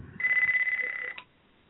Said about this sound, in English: That's my desk phone.